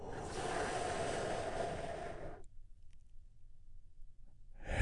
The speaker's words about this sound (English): let's take one big, deep, healing breath all together